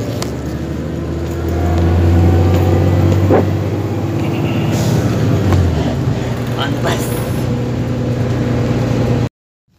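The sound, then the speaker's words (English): Riding on a bus: a steady low engine rumble and road noise fill the interior, fairly loud and continuous, with indistinct voices, until the sound cuts off abruptly near the end. “We're on the bus. Here we go. On the bus.”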